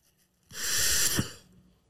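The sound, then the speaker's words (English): A single breathy inhale of peppermint-flavoured air from an inhaler, a hissing draw lasting about a second that ends with a slight catch and fades out, alone without talk. “So let me breathe some peppermint air and let's see if it helps”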